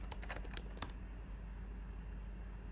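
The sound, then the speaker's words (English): Typing on a computer keyboard: a quick burst of several light clicking keystrokes in the first second, then the keys stop and only a low steady hum remains. “Let's go to Twitter and let's type in Tory drop charges, and let's see what that's looking like.”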